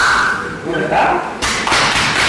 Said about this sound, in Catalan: els cops aquests que escolteu no és que estiguin apallissant a ningú, és que, com ja sabeu, per mantenir la seva masculinitat ferma s'han de pegar molt fort l'un a l'altre quan s'abracen a l'esquena